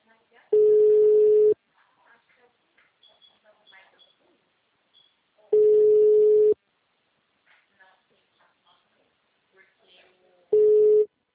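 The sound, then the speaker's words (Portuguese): A telephone rings with an incoming call: three long, steady, mid-pitched tones, each lasting about a second and spaced several seconds apart, with faint scattered noises in the gaps between them. “Só ver quem tá me ligando.”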